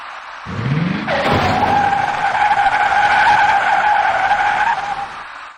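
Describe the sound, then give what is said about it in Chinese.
An electric bicycle crashes onto a ring-road emergency lane and slides along the pavement throwing sparks: a sudden impact, then a long, loud grinding screech with steady shrill tones that lasts several seconds before cutting off. “这位骑电动自行车的男士突然向右打晃，而后便翻倒在路面上，他所骑的电动自行车擦着火花向前甩了出去。”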